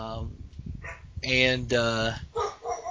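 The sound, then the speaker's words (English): A dog barks in a few short, loud, harmonic bursts mixed with higher yips, with a brief quiet gap between them. “I don't know if you hear her barking there. Yes. Yeah, I love that dog.”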